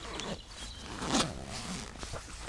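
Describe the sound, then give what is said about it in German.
A picnic is pulled out of a bag with soft rustling and a brief zipper-like rasp partway through, quiet and continuous. “Ich hol mal das Picknick raus.”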